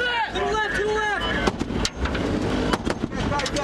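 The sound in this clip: Gunfire near a mosque: several sharp bangs crack out in the second half over a continuous roar, with raised voices and tonal wavering sounds earlier.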